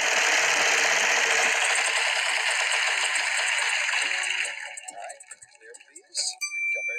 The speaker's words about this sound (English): Why don't we spin the wheel? Why don't we spin the wheel of badness, and we'll see what it tells us that we should talk about.